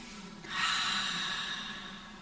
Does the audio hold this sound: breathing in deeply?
yes